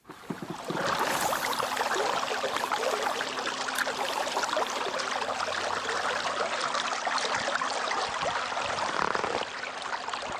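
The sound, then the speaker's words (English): Steady whirring drone of a trolling motor pushing a fishing boat, mixed with a continuous loud rush and churn of water that barely changes from start to end. “That's the sound of a trolling motor propelling a fishing boat.”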